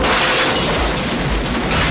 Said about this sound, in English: The door's blasted out with some pump-action shotguns, but Storm shoots the gunman.